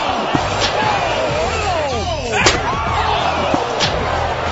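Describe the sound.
A steel chair strike sound effect in a mock pro-wrestling bit: a dense, noisy bed with swooping whistle-like sweeps, punctuated by a few sharp hits, the loudest one landing near the middle.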